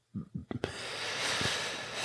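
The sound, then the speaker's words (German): A deep breath in and out follows a few brief voiced sounds, then becomes a long, soft, airy hiss that stays steady to the end. “wie jetzt gerade atme mal kurz tief ein und aus”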